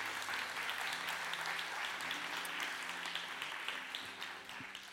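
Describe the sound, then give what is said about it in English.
Audience applause at Promised Land welcoming a guest speaker to the stage, a steady, faint wash of clapping that holds even and tapers slightly at the end. “Please give her a hand. Welcome her to Promised Land today.”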